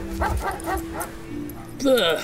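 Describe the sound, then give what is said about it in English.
A boxer dog at a dog park gives a few short, rhythmic yips, then a higher whining cry at the end, with a man talking over the sounds. “Philadelphia Dog Park, where a young dog, a boxer named Rocco, was training with his manager, Mickey the Mutt. Okay, Rocco, get the ball. Go get it,”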